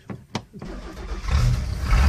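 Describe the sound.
A lobster boat's engine is primed and started on a morning run: a few sharp knocks and cranking thumps, then a low, rough rumble that catches and builds into a loud, steady run.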